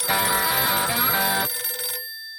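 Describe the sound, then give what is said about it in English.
A telephone rings for an incoming caller: a bright, bell-like tone sounds steadily for about a second and a half, then trails off into a fading tail, with no voices. “We got a new caller coming from Nebraska.”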